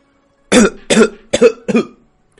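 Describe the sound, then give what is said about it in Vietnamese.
A man gives four short, harsh, dry coughs in quick succession while coughing up blood. The coughs are loud and clear, with no talk. “Ở trong lúc ho khan, hắn lại phun ra thêm một ngụm máu nữa”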